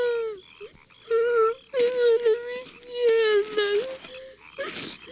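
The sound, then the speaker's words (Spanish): A young prince cries in pain after breaking both legs: loud wailing sobs and moans in several uneven bursts, with wavering pitch and short gasping breaks between them. “Por favor, no llores, príncipe Mefiboset.”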